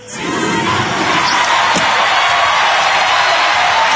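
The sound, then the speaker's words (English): Loud crowd cheering and roaring from people going wild, heard through an opened chat-room window. The dense, excited noise swells in within the first half second and then holds steady and full to the end. “Nobody ever cheers for me like that. And, man, these people are going wild.”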